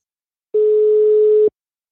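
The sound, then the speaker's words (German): A single steady telephone ringing tone on a call to Switzerland, one unbroken mid-pitched beep lasting about a second, heard alone between silences. “Sie lebt in der Schweiz und ich habe sie angerufen.”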